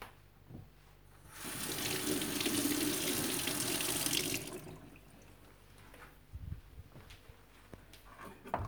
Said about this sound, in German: Wascht die Frühlingszwiebeln, putzt sie